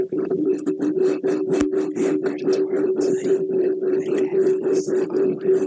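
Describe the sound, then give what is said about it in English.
Hoodie drawstrings rubbed against a microphone give a continuous scratchy rasp with many quick rhythmic strokes over a steady low hum. “Rub the strings from your hoodie on the mic.”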